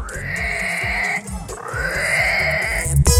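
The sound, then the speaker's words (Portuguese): Shrill, harmonic squealing from a wild boar, two drawn-out cries split by a short break, over a rapid run of low grunting pulses, ending in a sudden noisy burst. “Especial, mataram o javali.”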